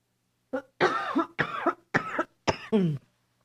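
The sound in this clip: Coughing and throat clearing from a preacher during a church sermon: a rapid series of harsh, voiced bursts packed into about three seconds. They are loud against an otherwise quiet background.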